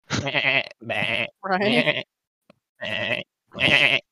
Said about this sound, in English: Goats out of the portal. This would be great for getting groceries.